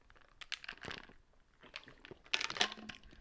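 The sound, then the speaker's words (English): A crunchy chewable supplement is chewed in quiet, irregular clusters of crisp crunches and bites, with the sharpest, loudest crunches coming toward the end. “Tastes like Rocket Pops, and that's all I really care about. I'm enjoying it right now as we speak. I don't know if you can hear that.”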